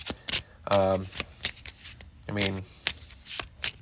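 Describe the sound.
Playing cards are drawn and handled during a tabletop card game with investigator cards, giving brief papery flicks and slides under ongoing talk.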